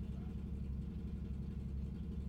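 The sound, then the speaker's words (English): A car engine idles outside, a steady low rumble that holds an even, unbroken level throughout without revving or pulling away. “That's how much noise he's making. Yeah, as soon as he fucking drives away.”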